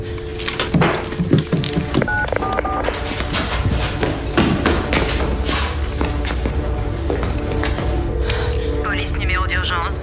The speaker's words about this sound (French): Et alors, vous allez voir, elle appelle, elle appelle au téléphone.